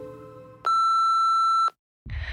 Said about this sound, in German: Du kannst dein Telefon nicht einfach ausmachen, bloß weil Sonntag ist. Das interessiert mich nicht. Geh ran.